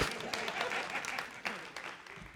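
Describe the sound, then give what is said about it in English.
Congregation clapping during a church sermon, a faint, uneven patter of many hands with a few sharper claps standing out in the texture. “Christian women, you can clap for that because y'all want to clap anyway.”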